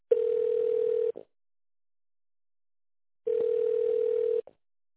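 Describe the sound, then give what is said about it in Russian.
A steady, mid-pitched telephone tone sounds twice while a call is being transferred. Each tone lasts about a second and is separated by roughly two seconds of silence, with no talking. “все, я вас перевожу в отдел кадров. Там Екатерина Олеговна. Перевожу вас.”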